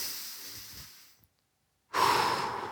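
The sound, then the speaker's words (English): A middle-aged man takes a deep breath: a long, soft airy breath fades out, a short silence follows, then a much louder, hissing breath starts abruptly and holds steady to the end. “We can right then take a deep breath.”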